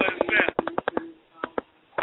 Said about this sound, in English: Somebody is actually texting on the phone. Whoever texting on the phone, at least mute your phone before you start texting. Whoever they got an old phone, so they clicking the hell out the buttons on it.